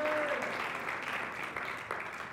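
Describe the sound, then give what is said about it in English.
An audience claps its hands in praise during a church service, a dense round of clapping that starts full and gradually thins and softens. “Can we give God a hand clap of praise?”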